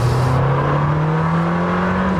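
An Italian sports car's V8 engine accelerates with a steady, loud, buzzing drone whose low note climbs gradually throughout.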